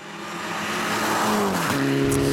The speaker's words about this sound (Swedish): få ett träningsåk på SM-sprintsträckan där man fick köra igenom sträckan en gång med tävlingsbil i full fart.